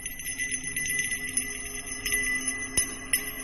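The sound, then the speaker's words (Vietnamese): A small hand bell is shaken during a ritual, giving a faint, continuous jingling ring with sustained high tones and a few sharper strikes. “cầm cái chuông, bái đi quanh đàn tràng ấy, vừa lẩm nhẩm khấn vừa lắc chuông leng ca leng keng”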